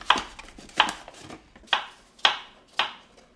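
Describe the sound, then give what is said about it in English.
A knife chops apples into half-inch cubes, landing firm, evenly spaced strikes on a board with softer taps between them; crisp, woody thuds with no talk. “Basically, you need to chop the apples into half-inch cubes. So she hands me the knife.”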